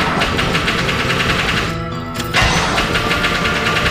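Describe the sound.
A car engine cranks and runs as a rough, steady mid-pitched drone. It falters and dips briefly partway through, then picks up again. No one talks over it.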